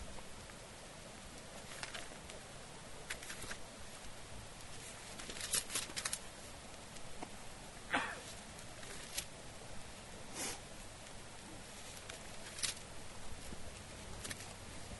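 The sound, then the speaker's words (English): Book pages turning among an audience: faint, scattered rustles and flips at irregular intervals over a quiet background hiss. “I still hear pages turning, so I'll wait a couple of seconds here.”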